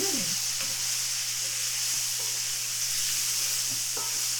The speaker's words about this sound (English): This is okay, so we're just gonna let that sizzle for a little bit.